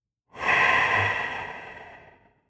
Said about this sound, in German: Also, man atmet mit einem Nasenloch ein und mit dem anderen aus.